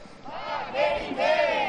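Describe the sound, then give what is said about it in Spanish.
Crowd noise at a violent street riot: many overlapping voices shout and yell together in a continuous, loud swell that grows stronger in the second half. “Si esta noche de disturbios, algaradas y violencia en la calle, ya se te ibas a decir, ¿vas a hablar otra vez de esto que suena así?”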